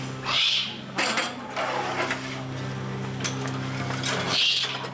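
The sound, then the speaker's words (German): Harsh, raspy hissing calls from a young Eurasian eagle-owl about 4.5 months old in a wildlife park: two breathy screeches, one near the start and one near the end, over a steady low hum. “Na, was ist denn das für ein Vogel? Eule. Klasse. Und was für eine? Das ist ein ganz kleiner Uhu hier, der ist gerade mal 4,5 Monate alt.”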